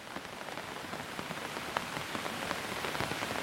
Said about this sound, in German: Der Regen ist dein leiser Begleiter, während du weitergehst.